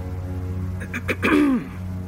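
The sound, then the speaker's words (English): A woman clears her throat once, a short rough burst that ends in a falling voiced tone, set against a steady low background hum. “cleared her throat for a second time.”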